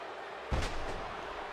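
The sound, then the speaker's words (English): A wrestler slammed to the mat by a snap suplex gives one heavy, low thud with a brief rumbling aftershock over a constant background roar. “IRS now with a snap suplex. Boom.”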